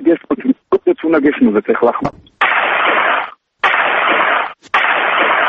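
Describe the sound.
Three loud rifle volleys fired as an honorary salute at a military funeral, each a harsh burst about a second long with short gaps between. A stretch of talk comes before them.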